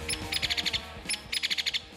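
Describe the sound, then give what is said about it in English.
Downy woodpecker and hairy woodpecker calls: two quick series of sharp, high, clipped notes in a rapid rhythm, separated by a short pause, with no voices. “That's the call of a downy woodpecker. And that's the call of the hairy woodpecker.”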